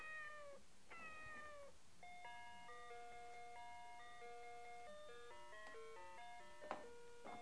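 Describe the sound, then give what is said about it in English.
A cat gives two drawn-out meows, followed by a steady electronic chiming melody of stepped tones. The whole clip is faint. “Look at the kitty.”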